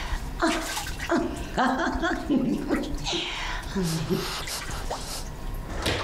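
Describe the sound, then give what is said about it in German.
Water being splashed at someone makes a few light splashes and drips, mixed with cheerful, playful talk throughout. “Oh, soll ich dich auch mal nass spritzen?”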